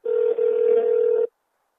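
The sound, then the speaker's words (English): A telephone ringback tone on an outgoing call: one steady electronic buzz lasting just over a second, with a brief dip near its start, then silence. “And so we made this call to Perry.”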